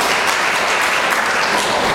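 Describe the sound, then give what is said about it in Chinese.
A church audience applauds itself during a Sunday service, a continuous, even roar of many hands clapping at moderate loudness with no talk. “所以我们给我们自己一个掌声好不好？”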